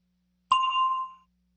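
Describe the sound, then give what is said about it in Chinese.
A bell rings once as an answer cue in a language lesson. The single bright, clear ding sounds alone and fades out in under a second. “Listen for the bell, then say your answer.”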